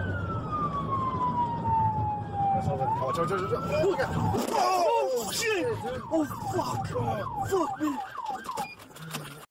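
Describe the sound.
Police car siren on an LAPD vehicle, captured on dash cam: a loud, long wail sweeps downward, then turns into a rapid, repeating warble that cycles up and down without pause.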